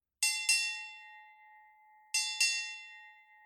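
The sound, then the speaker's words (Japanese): A bell that marks a change of roles is struck four times, in two quick pairs about two seconds apart. Each strike is a clear metallic clang that rings on and fades slowly, heard faint and alone. “このように鐘が4回鳴った場合は、最後の役割交代から2時間経ったことを表します。”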